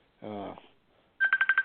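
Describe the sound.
Telephone ringing with a rapid, pulsing electronic trill that repeats several times at a steady high pitch, preceded by a short voice-like tone and a moment of quiet.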